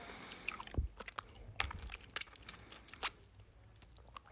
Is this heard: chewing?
yes

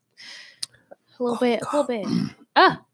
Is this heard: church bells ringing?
no

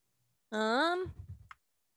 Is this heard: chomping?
no

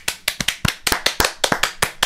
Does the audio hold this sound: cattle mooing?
no

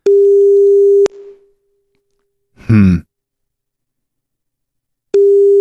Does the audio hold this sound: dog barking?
no

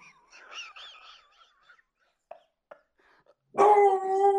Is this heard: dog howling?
yes

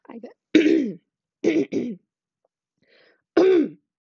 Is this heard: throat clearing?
yes

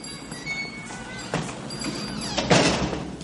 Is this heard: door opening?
yes

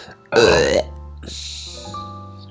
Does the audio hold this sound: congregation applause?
no

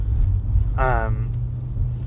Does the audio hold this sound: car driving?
yes

